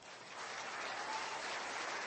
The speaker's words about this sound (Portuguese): Você pode aplaudir ele?